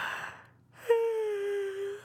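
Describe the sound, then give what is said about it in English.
A tired woman working at her loom late at night yawns: a sudden breathy onset, then a long, drawn-out voiced moan that holds a steady tone and sinks slightly in pitch, heard alone. “You're yawning. And your eyes are drooping.”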